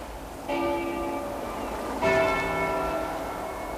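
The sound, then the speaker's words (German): Church bells ring out in two distinct strikes, the second slightly louder, each leaving long, overlapping metallic tones that hang and slowly fade, with no talking over them. “Hören Sie das? Glocken. Glocken, Professor.”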